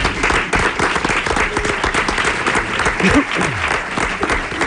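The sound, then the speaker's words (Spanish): An audience in a café applauds during a live interview, with dense, steady clapping at even loudness from start to finish and a voice briefly heard over it. “Un aplauso para ellos, yo creo, Ismael”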